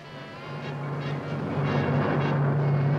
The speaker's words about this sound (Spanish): El avión para Lisboa.